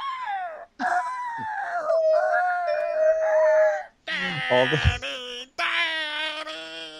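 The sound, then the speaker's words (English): A voice imitates women's high-pitched squealing in four shrill, wavering bursts separated by brief gaps. The squeals are loud and heard alone. “I liked that all the women squealed like Heavenly. It was, all you hear is like,”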